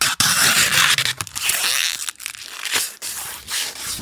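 Protective film is peeled and cut with a knife from an Asterion AURA illuminated VR charging stand by a gloved hand. Loud, crackly tearing and scraping runs almost continuously, broken by a few brief pauses.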